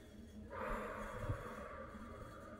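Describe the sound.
A slow, deep exhale during a breathing exercise: a soft, airy rush of breath begins after half a second and continues faintly to the end.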